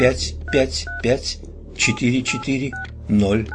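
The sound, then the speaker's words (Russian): Touch-tone beeps as a trembling finger dials a phone number digit by digit. Several short, bright dual-tone beeps are spaced between stretches of a person talking. “Кэти осторожно набирает номер, и мы слышим соответствующие каждой цифре номера щелчки”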